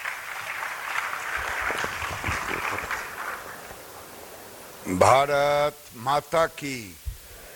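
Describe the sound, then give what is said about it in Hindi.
Audience applause welcomes India's Union Textiles Minister at a National Handloom Day event, a steady noisy patter for several seconds that fades before a man's voice begins speaking in short bursts. “जोरदार तालियों से स्वागत कीजिए.”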